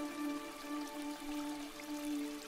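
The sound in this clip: Steady rushing water of a flowing waterfall, a continuous even hiss of spray and splashing with a soft sustained hum beneath, without pauses or voices.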